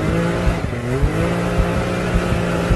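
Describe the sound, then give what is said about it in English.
Can-Am off-road vehicle engine revving: a loud, steady mechanical drone with layered low harmonics and a quick pulsing rhythm throughout. “Can-Am machines are designed to make your heart race.”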